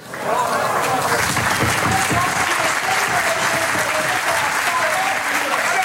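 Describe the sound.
Steady, dense applause that does not let up, from people in Germany as the last signal from a space probe arrived.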